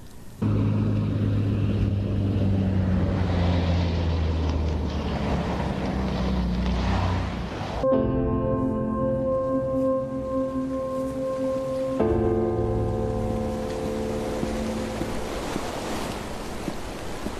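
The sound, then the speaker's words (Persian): Stormy sea waves rush and roar in a continuous, dense wash of noise. A steady low droning hum joins partway through and carries on under the surf. “دریا امروز طوفانیه ها.”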